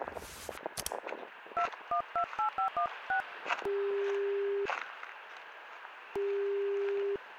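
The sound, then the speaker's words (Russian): A telephone being dialed: a rapid run of touch-tone beeps, then two long, steady ringback tones separated by a pause, with no talking. “Сейчас буду ему звонить.”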